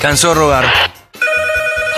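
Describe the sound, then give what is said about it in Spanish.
A telephone rings with steady, bright electronic tones in quick pulses, following a short burst of other loud sound and a near-silent gap. “Suena el teléfono, está Martina”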